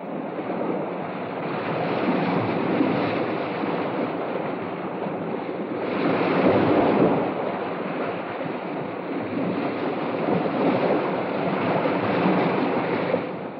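Sea waves wash continuously at the shore, a broad steady roar of surf that swells and eases in slow surges, with some wind noise mixed in.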